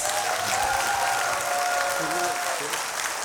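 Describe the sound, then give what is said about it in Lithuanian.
Audience applause welcoming a guest: dense, steady clapping that holds at an even level throughout, with a voice faintly audible underneath. “Ponios ir ponai, pasitikime plojimais vieną žymiausių Lietuvos tinklarašininkų, Ričardą Savukyną, kuris yra geriau žinomas kaip Rokiškis Rabinovičius.”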